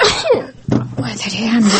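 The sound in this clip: A child coughing: a short run of rough, loud coughs with hoarse, voice-like breaths between them, lasting under two seconds.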